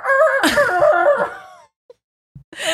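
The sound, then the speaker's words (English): A rooster crows in the morning, one long harmonic call that wavers and trails off, followed by a few brief faint sounds and the start of another call. “The roosters were out. Chickens are out. And they do, in fact, cock-a-doodle-do.”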